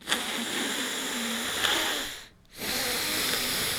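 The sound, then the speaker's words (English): Heavy, unhealthy-sounding breathing through the air passage: two long, breathy hisses separated by a brief silent pause, both loud and rough throughout. “and breathe. Listen to the sound of that air passage. It's not healthy.”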